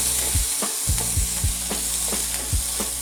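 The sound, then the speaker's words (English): Diced onions frying in extra virgin olive oil in a pan, a steady bright sizzle broken by repeated scraping strokes as they are stirred around at a quick, uneven rhythm. “using the same pan with the same heat, let's add in our diced onions and mix them around with the extra virgin olive oil.”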